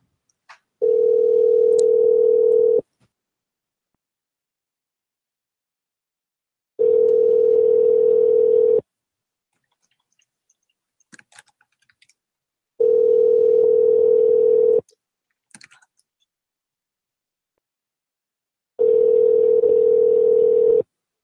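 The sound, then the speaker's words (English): Telephone ringback tone heard while waiting for someone to answer a prank phone call: four steady, even buzzing tones, each lasting about two seconds, separated by longer silent gaps with faint clicks between them. “It's just ringing and ringing and ringing until they answer.”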